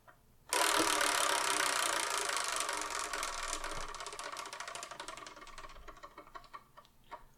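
A wheel spun to pick a number sets off a fast, loud ratcheting clatter that gradually slows into separate ticks before stopping.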